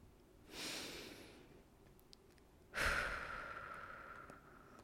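A deep breath: a soft breathy intake, then after a short pause a louder, longer sighing exhale that slowly trails off, with no talk over it.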